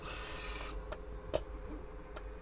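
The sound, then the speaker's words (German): A 3D bioprinter running while it extrudes a whitish, sticky liquid made with chlorella algae and human cells through its nozzles. It gives a faint, steady mechanical hum with a few soft ticks and one sharper click near the middle. “Eine weißliche, klebrige Flüssigkeit kommt aus Düsen von einem 3D-Drucker”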